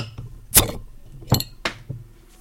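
A bottle of pumpkin beer is opened, giving a few sharp, separated clicks and clinks of cap and glass against an otherwise quiet background.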